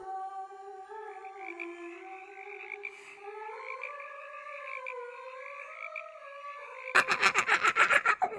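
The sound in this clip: A toad croaks in an ugly voice: a long, wavering tonal croak drawn out for about seven seconds, then a rapid run of louder, raspy pulsed croaks.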